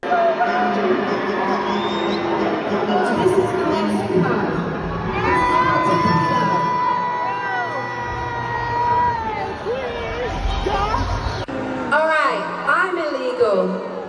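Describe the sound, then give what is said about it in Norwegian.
A concert audience boos a female performer off stage: a loud, steady roar of crowd voices with scattered shouts runs throughout, and a voice speaks over the noise. “Jeg tenkte vi kunne høre et lite klipp fra da hun ble buet av scenen her.”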